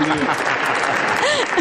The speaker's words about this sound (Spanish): Y encima le aplaudís, sois mala gente.